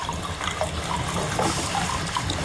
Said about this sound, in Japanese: このね、お湯が出てる音しますよね。